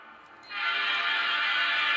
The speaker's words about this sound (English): And what you are hearing is train sound.